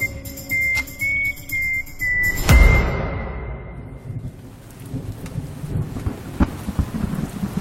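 Steady rain falls throughout, with a loud, rumbling thunderclap breaking in about a third of the way through and slowly fading back into the continuous patter of rain.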